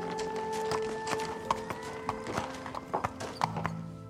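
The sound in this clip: Horse hooves clip-clop on the ground as the horse is led back to the barn, a faint, irregular walking rhythm of soft knocks with a few sharper hoof strikes.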